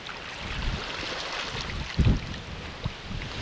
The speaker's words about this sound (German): Aber es ist schön, wie der Wind hier so unterschiedlich dass die Wellen kräuselt, ne?